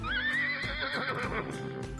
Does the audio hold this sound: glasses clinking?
no